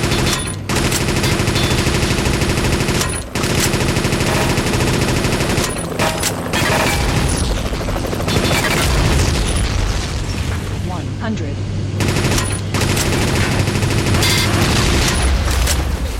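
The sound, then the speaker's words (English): A speed machine gun in a video game fires rapidly, its dense rattling mixed with booming blasts and broken by brief pauses while it reloads itself; a voice talks over the gunfire. “speed machine gun is you'll notice that it reloads itself, so it will briefly pause firing as it reloads itself.”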